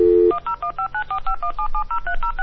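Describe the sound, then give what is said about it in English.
Touch-tone dialing of a telephone number: a brief steady tone, then a quick, evenly paced run of many short dual-pitch key beeps. “Ladies and gentlemen, live dialing.”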